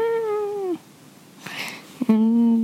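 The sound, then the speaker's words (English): A fat short-haired cat squeaks as she is hugged. Two drawn-out, high, tonal meow-like squeaks are separated by a quiet pause and a brief rustle, and the second squeak starts with a short chirp. “a fat, short-haired cat, and when you hug her, she squeaks.”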